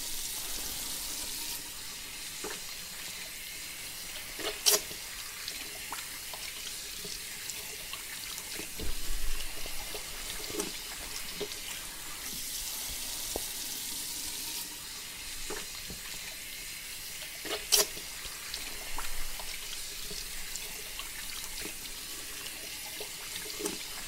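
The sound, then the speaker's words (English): Salon sink taps run water in a steady, soft flow. Occasional louder splashes and clicks break through, with no one speaking. “So let's get the sinks started.”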